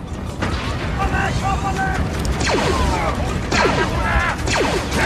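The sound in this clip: Several blaster shots fire during a vehicle chase, sharp zaps with falling pitch cutting through loud, rumbling engine noise and whining tones.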